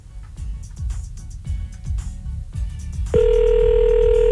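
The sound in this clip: A telephone dial tone as a call is placed: a series of soft, rhythmic low thumps and clicks, then a loud, steady single-pitched tone that holds to the end.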